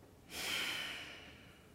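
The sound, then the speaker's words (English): A strong exhale during yoga belly breathing, part of a restorative practice: a single forceful, airy outbreath that starts abruptly and then tapers off gradually, with no talking. “pause at the top of the inhale. Strong exhale and pause at the bottom of the exhale.”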